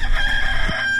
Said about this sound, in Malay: Bunyi ayam juga, Mak.